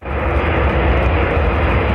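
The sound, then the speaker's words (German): A US military aircraft lands on a runway in Riga, Latvia, in the evening. Its loud, steady engine roar holds at a constant level throughout. “Ein Rollfeld in der lettischen Hauptstadt Riga. Es ist bereits Abend, als eine US-Militärmaschine wieder landet.”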